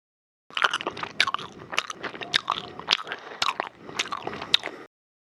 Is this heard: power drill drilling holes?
no